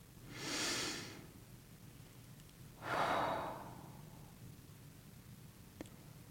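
A deep breath in and out, heard as two soft, airy hisses with a short pause between them; the second is lower and trails off longer. No one speaks.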